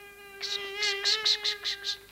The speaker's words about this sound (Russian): Это просто муха. Обыкновенная черная муха.